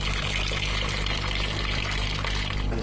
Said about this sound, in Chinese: 把煮好的汤水倒入缸中，